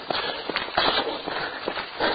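Running footsteps of a racer late in a long race approaching the finish, a steady rhythm of soft thuds underneath continuous background noise.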